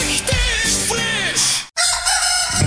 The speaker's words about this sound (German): MacGockel, hier kräht der Geschmack.